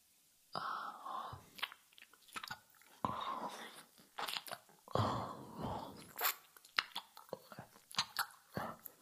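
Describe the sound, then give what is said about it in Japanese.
Wet, close ear-licking mouth sounds from an ASMR recording: many irregular smacking, slurping and crunchy clicks in soft bursts, with brief pauses between them and faint breathy whispers. “俺に耳舐められてる音集中して聞いて。”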